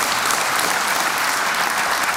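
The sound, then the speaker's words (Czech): Audience applause for a nominated actor: a dense, steady wash of clapping that holds at an even, fairly loud level throughout, with no talk over it. “10krát byl nominovaný na Tálii, zatleskejte mu to.”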